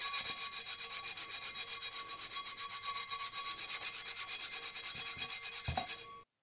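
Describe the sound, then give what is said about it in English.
An old emery board nail file rasps back and forth, filing rust off the rim of an iron pot lid. Many quick, even scraping strokes repeat in a steady rhythm, then stop abruptly. “I've got an iron pot lid. It's got a bit of a rust around the rim. I've got an old emery board nail, nail file because I couldn't find any sandpaper”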